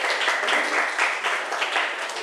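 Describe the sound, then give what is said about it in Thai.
Students in a classroom applaud a classmate, a steady patter of many clapping hands at moderate loudness that rises and dips slightly but continues for the whole clip. “ขอบคุณค่ะปรบมือให้เพื่อนหน่อย”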